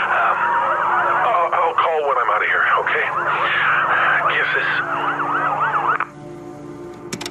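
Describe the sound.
Rescue vehicle sirens sound after an earthquake, with several loud, overlapping wailing tones that rise and fall repeatedly before cutting off near the end, leaving a faint steady hum.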